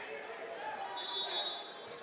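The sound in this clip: A basketball is dribbled on a hardwood court during a boys' high school playoff game between Exeter and Muhlenberg. Bounces run beneath continuous talking and background game noise.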